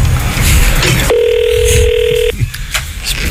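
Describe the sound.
A telephone rings once with a steady electronic tone lasting a little over a second, standing out clearly against a noisy background.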